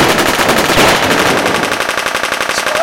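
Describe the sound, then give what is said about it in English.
Rapid machine-gun fire, a radio drama sound effect of guns shooting at a robot: a loud, dense, unbroken rattle of many shots that settles into evenly spaced bursts toward the end, with no voices. “Shoot him! Stop! Sir, are you all right? Yes, I think I'm okay. Shoot him again!”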